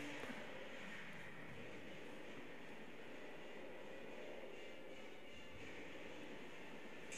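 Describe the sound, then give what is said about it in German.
Steady, dense roar of a Japanese aircraft engine in low-fidelity wartime bombing footage, unbroken throughout with no clear change in pitch. “Die Musik ist nicht original. Da kommt jetzt so ein japanisches Flugzeug vom Himmel.”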